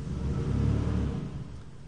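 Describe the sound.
A car engine revs outside, a brief, fairly faint low rumble that swells and then settles back, with no talk over it.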